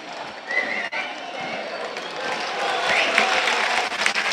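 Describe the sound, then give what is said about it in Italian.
A stadium crowd applauds a football player walking beneath the stand at a Parma match, a continuous, broad wash of clapping and crowd noise that swells slightly toward the end. “Gli applausi sono per McKennie, che sfila sotto la tribuna.”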